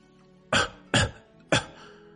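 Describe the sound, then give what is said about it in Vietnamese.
An old Taoist priest coughs dryly three times. The three sharp bursts come at fairly even spacing, each fading quickly, with quiet between them and no talk. “lão đạo sĩ chợt ho khan vài tiếng rồi mới giảng giải.”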